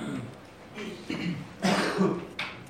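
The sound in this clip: A person coughs a few times in short, rough, throaty bursts during an accounting course class, loud against a quiet background.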